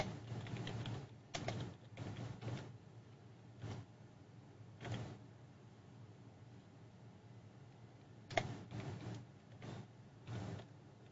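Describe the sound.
Typing on a keyboard in scattered bursts: faint clusters of clicks separated by long pauses, quiet throughout.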